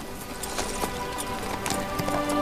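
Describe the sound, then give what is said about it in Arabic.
Clip-clopping horse hooves as a horse is urged on, a steady run of hoofbeats against a continuous background wash. “هيا امشي أيها الحصان، هيا سر.”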